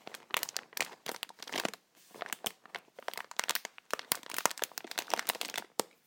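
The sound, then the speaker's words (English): Light crinkling and crackling: many soft, irregular bursts in quick succession with brief pauses between clusters. It stays gentle and quiet throughout, with no talk. “So I'll just leave you now with some light crinkling.”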